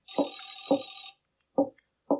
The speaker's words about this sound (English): Where is that phone? I wish to answer it, but I do not know where it is.